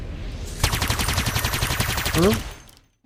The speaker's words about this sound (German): aber einer scheint sich noch mal den Spaß zu machen und noch mal auf euer Schiff zu schießen